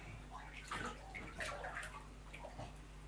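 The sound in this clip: Water sloshes and splashes softly in a bath as a child is washed and scrubbed, a faint run of small irregular splashes and drips with no clear pattern.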